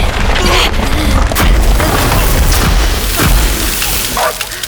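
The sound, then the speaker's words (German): Glass icicles crash and rattle down in a loud, continuous jumble of impacts and breaking noise, with many sharp hits scattered throughout. “Die Eiszapfen aus Glas sind nach unten gerasselt. Die hätten uns beinahe erwischt.”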